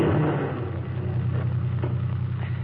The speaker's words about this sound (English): certainly we turn the key, like this. Then we step on the starter.